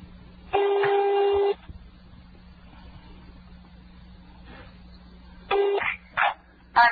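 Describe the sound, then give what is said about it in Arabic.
Telephone ringing tone on a call to a landline number in Rafah: one long, steady, buzzy tone near the start, then a few shorter bursts near the end, with a low hum between them and no talk. “هذا الآن رقم أرضي ولا لا؟ أيوة كل أرقام أرضية. أي هذا وين؟ في رفح. 21 في رفح. أي هذا قاعد يرن”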